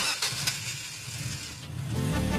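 A car engine starts with a broad, rough rumble, and a rising tone emerges near the end.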